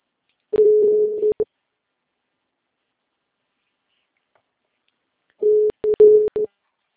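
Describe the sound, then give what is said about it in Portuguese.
A phone call's ringing tone, garbled and breaking up. Two short bursts of a steady mid-pitched tone come about five seconds apart. Each burst is choppy and cut by crackling dropouts, with silence between them. “A ligação tá chamando, mas tá, tipo, falhando, sabe? Tipo, chamando meio embolado, assim.”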